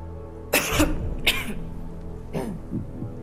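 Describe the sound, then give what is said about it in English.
A woman in an audience clears her throat and coughs: two loud, rough bursts close together, then a fainter throat-clearing sound a second later. “sitting in the audience, suddenly has a tickle in her throat.”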